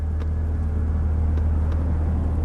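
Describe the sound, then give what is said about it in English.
A car drives along with a steady low engine and road rumble, even in loudness from start to finish, with no talk. “She drives.”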